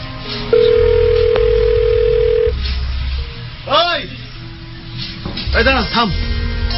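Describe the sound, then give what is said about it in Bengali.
A telephone ringing tone on an outgoing call: a single steady, clear tone lasting about two seconds over a low hum, followed by other warbling sounds. “দাঁড়া phone করে দেখি। আমি তো phone দিয়েছিলাম, ধরে নাই, তুই দিয়ে দেখ তো।”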